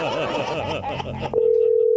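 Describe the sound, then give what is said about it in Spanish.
A telephone call ringing on the line: a steady, mid-pitched tone starts after a burst of laughter and voices, then holds evenly to the end. “Vamos a llamar a otra persona.”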